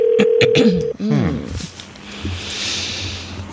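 A telephone number is dialed as a quick run of touch-tone beeps in the first second, followed by softer line noise and hiss as the call connects.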